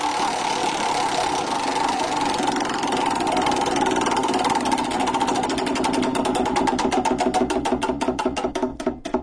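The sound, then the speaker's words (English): A prize wheel spinning, its pointer ticking in a fast, dense rattle that gradually slows, the clicks spreading farther apart toward the end; no voices are heard. “It is called The Wheel of Surprise. We spin the wheel, find out what story's next.”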